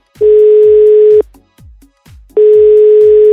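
Ringback tone of an unanswered outgoing phone call: two steady, loud, mid-pitched buzzing tones, each lasting about a second, separated by a pause with faint low knocks.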